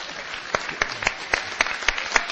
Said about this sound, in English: Yeah, give them all a big hand.